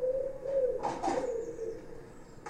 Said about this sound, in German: Ich sitze an meinem Schreibtisch und aus den Lautsprechern des Computers schallt das akustische Geschehen eines Hinterhofs.